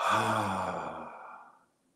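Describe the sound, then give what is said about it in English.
A long, deep exhale during a stress-relief breathing exercise: a single breathy sigh with a slight voiced tone that fades out over about a second and a half. “Exhale. Deep breath. Hold 2. Exhale.”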